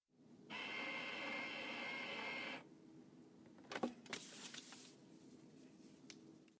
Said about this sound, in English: here's the sound of a Colibri machine, which, by the way, is a machine that automatically covers a book.